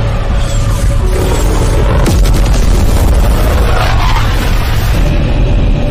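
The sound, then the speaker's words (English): A bomb explodes on a target building, a loud, dense rumbling roar that fills the whole stretch, with a sharp crack partway through. “Type 1 control bomb on target.”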